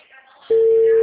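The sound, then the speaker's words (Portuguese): Telephone ringing tone on an outgoing call: after a faint stretch of background noise, a loud, steady single-pitch tone starts partway through and holds unbroken to the end. “Tá, eu tô ligando, tá chamando, qualquer coisa eu paro aqui.”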